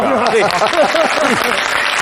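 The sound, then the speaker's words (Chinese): Brief applause on a cooking show, clapping that praises neat knife work dicing carrots, heard under voices that talk over it. “你看看， 还得鼓掌啊。”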